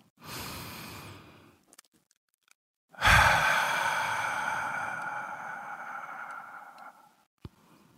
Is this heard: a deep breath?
yes

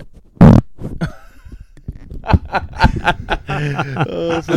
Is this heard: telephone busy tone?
no

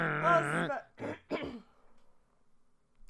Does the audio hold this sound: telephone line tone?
no

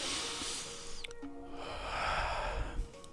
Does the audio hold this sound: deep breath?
yes

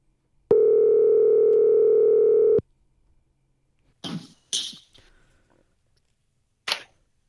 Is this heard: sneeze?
no

